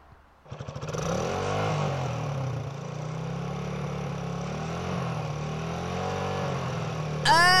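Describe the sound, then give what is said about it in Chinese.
A heavy motorcycle engine bursts into a sudden roar, then runs in a steady low rumble with slightly wavering pitch, swelling into a louder rev at the very end. “啊！重型机车的声音好可怕哦！”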